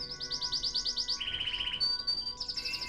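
A male songbird sings near the nest, with rapid, high, bright trilled phrases of repeated chirps. Each phrase shifts to a new pitch, and the series continues without pause over a faint, steady background.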